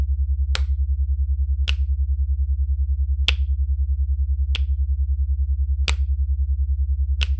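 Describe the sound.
Six sharp finger snaps ring out alone at uneven intervals, each crisp and bright, over a low, steadily pulsing drone that runs throughout.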